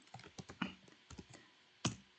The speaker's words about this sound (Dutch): Laten we het hier typen.